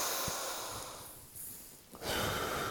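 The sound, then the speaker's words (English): A deep inhale through the nose during a guided breathing exercise: a long, airy hiss of breath that dips in the middle and then swells louder toward the end, with no voices. “So let's inhale it in. Exhaling out. Very nice. Inhale in.”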